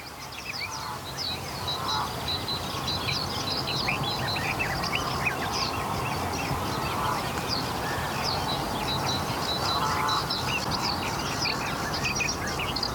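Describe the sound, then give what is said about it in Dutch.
A great tit sings outdoors among a dense chorus of other songbirds, with many overlapping chirps and phrases over a steady background hiss throughout. “Koolmees is nog aan het zingen, klopt dat?”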